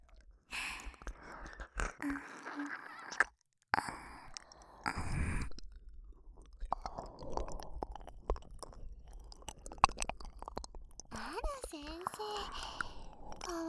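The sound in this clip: Wet ear licking and mouth sounds in an ASMR recording, with intermittent smacking and slurping bursts, soft sighs and brief silent gaps between the close, quiet mouth noises.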